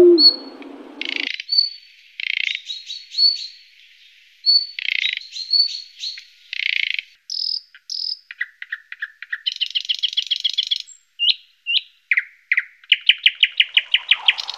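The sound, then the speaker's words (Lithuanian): Nightingale song, from a songbird of the thrush family, delivered as many separate high-pitched phrases of whistles, buzzes and rapid trills with repeated notes, set apart by brief pauses. “Lakštingalos savo giesmė yra tikrai nepralenkiama giedotoja, tad atspėti jos balsą tikrai buvo nesunku.”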